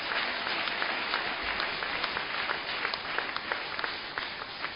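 An audience applauds during a church service. Dense, even clapping continues steadily for nearly five seconds without clear breaks or swells.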